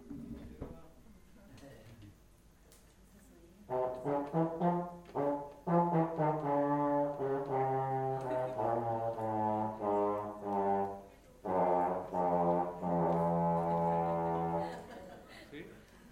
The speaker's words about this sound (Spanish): Ese es un eufonio o tuba tenor.